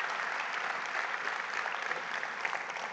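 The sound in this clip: Audience applause welcoming a guest speaker to the stage, a dense, steady wash of many hands clapping that holds at an even level throughout.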